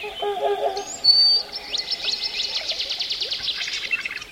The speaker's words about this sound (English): some have been tuning in to Tree.fm, a website that serves up recordings of forests around the world, like this one from Denali National Park in Alaska.